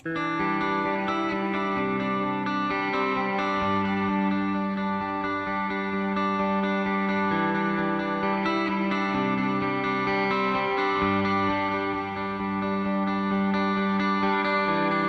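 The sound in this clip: A pop rock song from a new album plays as a loud, steady full-band mix with dense guitars and a driving beat, continuous throughout without pause.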